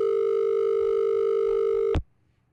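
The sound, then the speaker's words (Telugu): After a call is cut off, a steady telephone dial tone hums alone, then ends abruptly with a sharp click and near silence. “Call cut అవుతుంది.”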